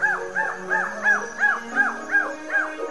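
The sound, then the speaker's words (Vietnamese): Wild beasts howling at night, heard as a steady, evenly paced series of short, arched, canine yelping wails, repeating many times at a moderate, unchanging loudness. “để nó khỏi nghe tiếng thú đái tru rú trong đêm”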